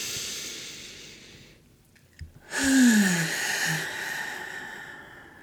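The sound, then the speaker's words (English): A deep breath, soft and airy, swells into a fuller breathy sound carrying a faint low voiced tone, set over a steady background hiss. “All right, deep breath.”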